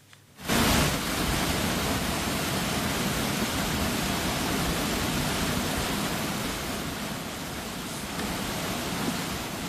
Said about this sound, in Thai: ผู้ใช้ Facebook กลุ่มที่พักสระบุรีชะอมมีการโพสต์คลิปวิดีโอน้ำป่าไหลหลากเข้าท่วมภายในรีสอร์ทในพื้นที่หมู่ที่9ตำบลชะอมอำเภอแก่งคอยจังหวัดสระบุรี